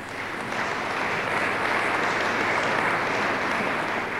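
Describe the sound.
An audience applauds during a speech, a broad, continuous patter of many hands clapping. It swells slightly after the first half second and then holds steady and fairly loud for about four seconds.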